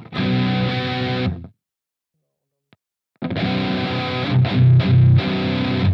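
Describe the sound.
An electric guitar played through distortion and a noise gate gives thick, buzzing sustained chords that cut off abruptly into dead silence, then resume with more gritty, loud playing.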